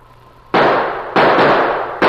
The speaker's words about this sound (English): Gunshots blasted the silence of the wilderness.